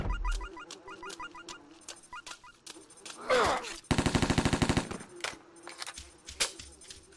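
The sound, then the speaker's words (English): MP5 burst fire in a video game: a rapid, rattling string of many shots in the middle, set among scattered quieter clicks and effects before and after. “MP5 burst fire. MP5 burst fire.”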